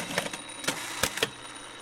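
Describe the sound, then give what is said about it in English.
Sewing machine stitching the button fly on a pair of jeans in a workshop: a brisk run of mechanical clatters and clicks over a steady whir, with a few sharper knocks standing out. “I'm dropping by his workshop just as he's sewing the button fly on my jeans.”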